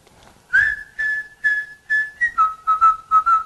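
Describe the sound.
A person whistling a simple tune of many short, clear notes, fairly loud and alone, holding one pitch at first and then dropping to a lower pitch for the rest.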